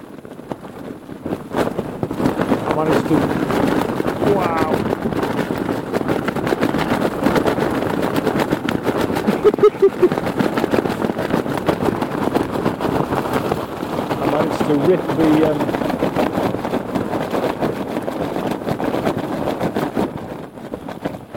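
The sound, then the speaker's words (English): A tent door with a broken zip flaps in strong wind, making a continuous rapid fabric flutter over a rough rumble of wind noise that stays loud throughout. “I'm just trying to peg this door back down, stop it from flapping so much.”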